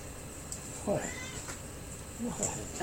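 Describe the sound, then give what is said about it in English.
A black cat meows twice in short, rising-and-falling cries separated by a pause, with a third meow beginning just as the sound ends, over a faint background hum. “Oh, that's my black cat, people wondering.”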